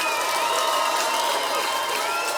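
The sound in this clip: Concert audience applause and cheering for a singer and her band at the BBC Radio 6 Music Festival in Manchester: a dense, continuous roar of clapping with shouts and whistles, loud and even throughout.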